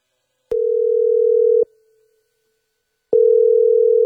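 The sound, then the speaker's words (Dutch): Telephone tone heard while placing a call: two loud, steady mid-pitched tone bursts. The first lasts about a second, then there is a gap of silence, and the second sounds until the end. No voices. “Ik besluit Junior even te bellen.”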